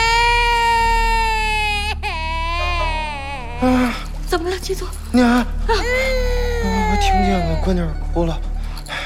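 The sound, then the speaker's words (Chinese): An infant cries in long, wailing, high harmonic sobs whose pitch wavers and breaks, with several drawn-out phrases separated by short catches of breath. The crying is loud and steady over a low, constant background hum. “娘，我听见了，闺女哭了”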